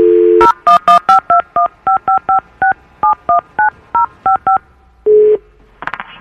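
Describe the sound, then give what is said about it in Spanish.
Touch-tone keypad beeps as a phone number is dialed to call a young man: a brief steady dial tone, then a rapid run of many short, evenly spaced two-pitch beeps, followed by one lower tone and a short crackle at the end. “vamos a marcarle a tu, este, al muchacho a ver si nos contesta”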